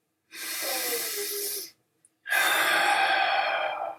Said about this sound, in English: If you can just take 3 deep breaths with me right now.